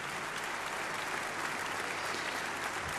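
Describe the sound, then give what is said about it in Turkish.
Applause from a concert audience, with orchestra members joining in as they stand, forms a dense, steady wash of many hands clapping at an even loudness throughout, with no pauses or distinct single claps. “Orkestra üyeleri de o alkışlara eşlik ediyorlar.”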